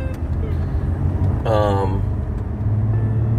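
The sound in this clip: Steady low engine and road rumble from a car driving through Hollywood, continuous throughout, with a brief voice partway through.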